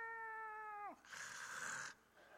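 Neighborhood cats fighting: a sustained, tonal yowl holds steady and then drops sharply in pitch, followed by a loud, noisy hissing burst that cuts off abruptly and leaves faint residual noise.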